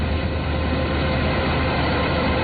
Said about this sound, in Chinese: 走进山西大同市云冈区西韩岭乡泰善村，收割机正开足马力作业，转运车辆紧随其后